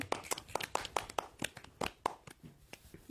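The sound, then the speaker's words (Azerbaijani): A group of children clapping their hands in a classroom play session, with many scattered claps landing at an uneven rhythm rather than in unison. “Alqışlayın səhəri.”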